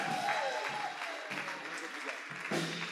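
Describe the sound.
Applause from a church audience standing to welcome a speaker: a dense, even wash of clapping that holds steady throughout, with faint voices mixed in.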